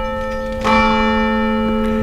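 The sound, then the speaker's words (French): Church bell ringing from a village church tower, a sustained, resonant peal with a layered metallic hum, swelling louder with a fresh strike partway through and then ringing on steadily to the end. “On va laisser passer la sonnerie qui est grenée par le clocher de l'église qui est juste derrière moi”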